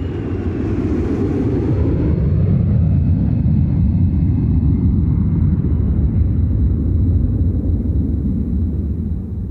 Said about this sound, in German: Als das Flugzeug auf der Schweizer Piste aufsetzt, hat von Spalat